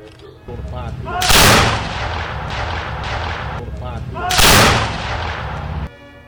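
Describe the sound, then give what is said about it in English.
Two loud volleys of muzzle-loaded muskets fired together on command during a drill demonstration. Each is a sharp, broad crack with a rumbling tail, spaced about three seconds apart over a lower steady background. “Shoulder arm. Ready. Aim. Fire.”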